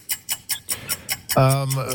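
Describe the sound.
A one-minute game clock ticks in a quick, even series of sharp clicks, seven of them in the opening stretch, then a voice begins speaking while the ticking carries on faintly underneath.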